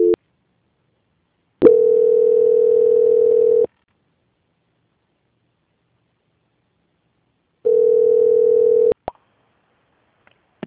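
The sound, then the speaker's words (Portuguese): A telephone line tone sounds while a call is being transferred with star-2 and an extension number. Two long, steady beeps are separated by silence, followed by a few brief clicks. “Tá, pera aí, então, que eu vou tentar transferir a ligação. Transferência.”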